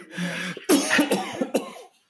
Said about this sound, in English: I was trying not to cough, but it caught up to me.